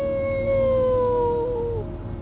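A person imitates a wolf howl: one sustained, tonal howl that holds steady, then slides down in pitch and breaks off near the end.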